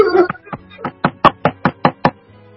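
Knocking on a house door forms a steady series of many sharp, hollow raps at an even rhythm, softer at first and then louder and more forceful.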